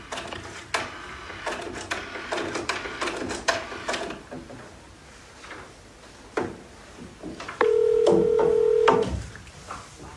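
A telephone being dialed: a run of sharp dialing clicks and key sounds, followed by a brief steady tone, with no voices.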